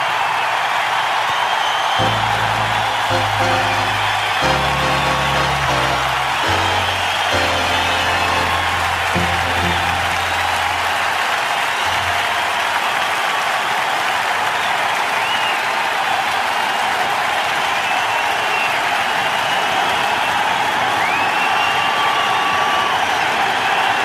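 A stadium crowd roars with cheers and applause for the ceremonial first pitch thrown by President George W. Bush at Yankee Stadium, New York, in October 2001. The loud, dense roar holds unbroken from start to finish.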